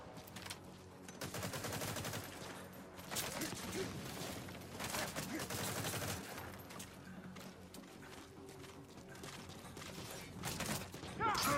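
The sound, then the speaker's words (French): Gunfire from a video game, aimed at the player, crackles in dense, rapid bursts through nearly the whole stretch. It blends with continuous game noise at a steady, fairly loud level. “y a comme quelque chose qui me tire dessus. Il tire dessus.”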